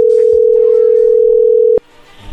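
Telephone dial tone heard while a call is being placed, a loud, steady, unbroken mid-pitched hum that stops abruptly with a click, leaving faint line noise.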